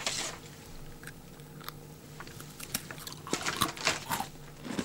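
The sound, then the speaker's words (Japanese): Crisp bites and chewing of a salted caramel cookie: a run of dry crunches and mouth sounds that grow denser and louder toward the end, with no talking. “キャラメルサレいただきます。”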